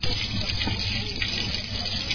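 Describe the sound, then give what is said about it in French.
Water running steadily from a tap after a two-week cut in the city's supply, a continuous loud rushing and splashing with no pauses or voices. “Nous sommes très contents comme l'eau coule déjà au robinet.”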